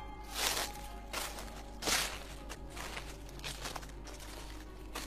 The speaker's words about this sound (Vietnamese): Gần chỗ hai đứa chúng nó ngồi bỗng vang lên tiếng loạt xòa loạt xoạt, giống như kiểu là ai đang càng lúc càng đi đến gần.